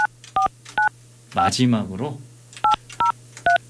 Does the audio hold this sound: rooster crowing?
no